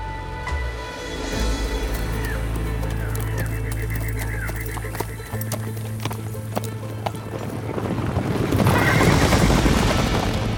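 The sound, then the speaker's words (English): A horse whinnies and its hooves clip-clop as a rider trots it down a road. Steady hoof clicks run throughout over a sustained low drone, and a louder, noisier burst near the end carries the neigh. “she watched as he mounted his horse and trotted glumly down the road.”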